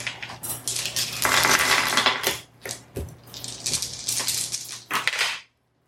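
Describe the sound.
Several dice are rolled for a tabletop role-playing game, making a long, busy rattling clatter of many small hard impacts that carries on for about five seconds and then stops abruptly.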